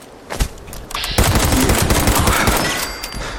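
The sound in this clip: Rapid gunfire rings out in a zombie shooter video game: one early sharp pop, then a dense, sustained burst of loud cracking shots that blend into a continuous roar.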